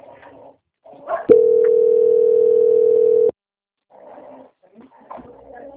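A steady single-pitch telephone line tone plays while a bank call is transferred to a quality-control department. It holds loud and unbroken for about two seconds, with faint murmuring noise just before and after.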